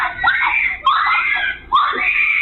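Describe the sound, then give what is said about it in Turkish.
A 10-year-old child screams over a pet dog just struck and killed by a car on a road, in three long, loud, high-pitched wails separated by brief catches of breath. “Telef olan köpeğin başında dakikalarca çığlık atan çocuğun yanına annesi koştu.”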